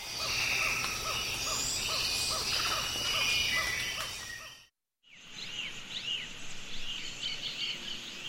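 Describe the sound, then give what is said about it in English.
Rainforest soundscape on the Osa Peninsula, Costa Rica, before and after logging in the late 1980s: a dense chorus of insects and birds, then a brief silence, then a second stretch of insect and bird calls. “That's the sound of the Osa Peninsula in Costa Rica before and after logging in the late 1980s.”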